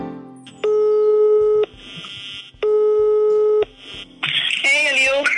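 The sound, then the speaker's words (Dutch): A telephone ringback tone sounds as a call is placed: two steady, loud one-second tones separated by a pause of about a second, followed by a voice starting to speak as the call connects. “Dus ik ga nu meteen even bellen.”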